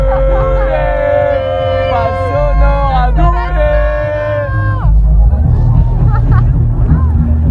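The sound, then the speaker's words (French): Crowd hubbub rises from behind a festival main stage, with loud sustained tonal sounds over a rumbling bed, then giving way to a noisier mix of chatter and voices. “Eh oui, dans le fond, on entend le fond de la scène. Le chahut.”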